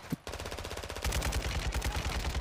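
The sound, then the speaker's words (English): Machine gun fire crackles in rapid, evenly spaced bursts. A brief sharp snap comes first, then a short gap. A steady stream of shots follows and grows louder and heavier about halfway through. “Taking effective fire.”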